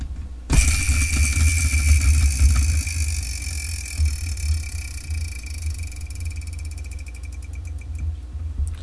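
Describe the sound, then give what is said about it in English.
A prize wheel is spun: a sudden start gives way to a sustained rattling whir that fades gradually, with the pointer's ticks becoming more distinct near the end. No voices are heard. “So let me spin the Wheel of Manga to see what I'm going to be reviewing for Valentine's Day.”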